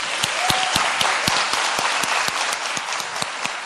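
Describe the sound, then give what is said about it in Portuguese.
A church audience at a Baptist service in Porto Alegre claps for a visitor, a steady, rhythmic applause with the hands striking together almost in unison at an even pace. “Vamos bater palma para ele de novo?”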